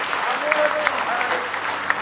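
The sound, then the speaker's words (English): Church audience clapping in praise: a dense, steady wash of many hands, with voices calling out over it. “Give him one more hand clap of praise.”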